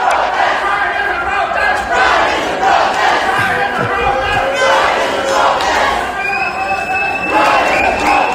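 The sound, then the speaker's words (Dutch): Crowd noise from a small street pride march in Ostend, held on the seafront dike after a performance: sustained cheering and shouting voices in waves, loud throughout. “in Oostende zijn jullie na de voorstelling ook op straat gegaan, een soort mini-pride. Dat was een primeur voor Oostende, dat klonk ongeveer zo.”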